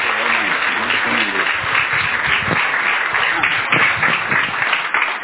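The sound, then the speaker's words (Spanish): Dense, continuous clapping from an audience welcoming a speaker at a church anniversary service, steady and loud for the whole stretch, with voices faintly mixed in. “Así es que vamos a recibir con un fuerte aplauso al doctor Ramiro Martínez.”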